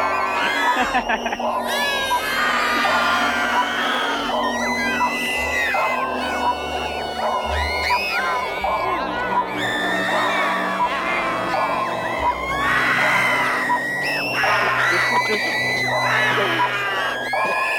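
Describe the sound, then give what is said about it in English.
A crowd screams continuously, with many overlapping high shrieks, whoops and yells piling on top of each other, loud and sustained throughout without a break. “I think each scream has one track, or you. There's a lot of different screaming going on.”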